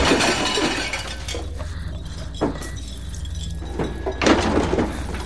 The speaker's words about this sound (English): throws glass, then overturns a table.